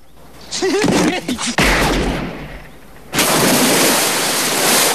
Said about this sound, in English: Harry fires, and the shot throws Scorpio off the jetty into the water.